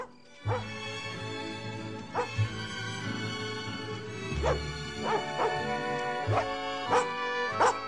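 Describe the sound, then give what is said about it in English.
A dog barks and whimpers as it balks and pulls away while being led outside, giving a few sharp yips and whines over a steady low background. “The dog balks and pulls away as they approach Jameson.”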